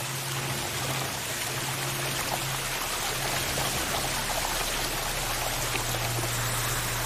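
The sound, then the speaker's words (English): Water pouring off an edge onto the floor of a living room, a steady, dense rushing splash that runs unbroken throughout over a faint low hum. “In the living room, water pours off an edge to the floor.”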